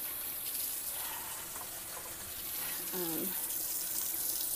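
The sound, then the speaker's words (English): Water running from a tap while someone washes their hands: a steady, even rush of splashing water that continues unbroken throughout, with a slight swell in level toward the end. “I'm gonna wash my hands because I just touched that little straw.”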